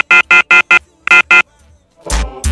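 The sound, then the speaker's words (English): A phone rings for an incoming call with loud electronic tones in bursts: four short rings, a brief pause, then two more, after which a voice begins. “We got another phone call right now.”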